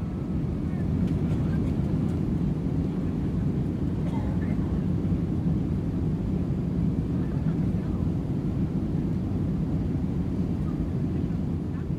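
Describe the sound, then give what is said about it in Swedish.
Steady low rumble of a Pan Am airliner with 57 passengers aboard, taxiing slowly out onto the runway. A dense, even engine drone holds without a break for the whole stretch, loud and unchanging. “Flygbesättningen har hjälpt de 57 passagerarna att inta sina platser på planet. Och Pan Am flyg 914 rullar sakta ut på startbanan.”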